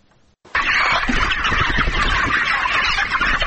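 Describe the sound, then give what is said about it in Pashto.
Poultry fill a chicken farm in the Bedak area of Tarinkot, Uruzgan province, with a dense, loud flock clamor that starts abruptly after a brief quiet and continues unbroken. “دا د ترینکوټ ښار اړوند د بیداک په سیمه کې د نعمت الله حکیار د چرګانو فارم دی چې د نموړي په شمول څلور نور کسان هم پکې په کار بوخت دي”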